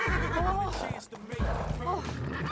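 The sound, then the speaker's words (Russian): A horse whinnies during a 1912 Hyde Park riding scene, a shaky, wavering cry mixed with people speaking. “1912 год. Едут на лошади.”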